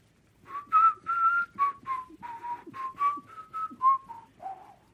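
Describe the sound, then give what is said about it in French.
An animated snowman whistling a tune as he walks away: a clear melody of many short, separate notes in a steady rhythm, the last notes dropping lower, with no talk. “Le bonhomme de neige leur dit au revoir et s'éloigne en sifflant.”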